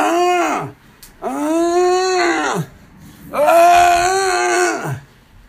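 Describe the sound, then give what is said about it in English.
A man's voice imitating a man screaming while walking along a street: three long, loud, wavering wails, each sliding down in pitch at its end, separated by short pauses. “And he's basically just screaming.”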